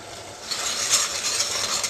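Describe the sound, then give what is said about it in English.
Cumin, coriander and turmeric simmer in a pan, making a faint, steady sizzling hiss with soft stirring scrapes. “Let this simmer, it becomes a lovely color with all the spices and the turmeric.”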